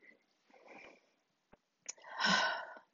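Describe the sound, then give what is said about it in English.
A deep breath drawn by a speaker pausing mid-talk: a short sniff comes first, then a long, loud, airy inhale, after a few fainter breathy sounds earlier on. “So as I take a deep breath,”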